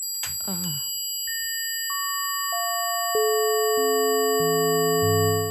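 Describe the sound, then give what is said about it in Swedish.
Pure sustained electronic sine tones for sound yoga enter one after another after a brief voice at the start. Each new tone is lower than the last, so the pitch steps steadily downward while the earlier tones keep ringing. “Det är en ljus ton, ja. Men är det här lite grann som klangyoga? Ja, lite tror jag. Okej, här kommer ljudet.”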